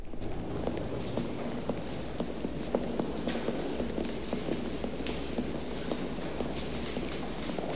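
Footsteps stride into a grand, opulently decorated building foyer bustling with people in suits. Many light, steady taps sit over a constant murmur and low hum of crowd ambience.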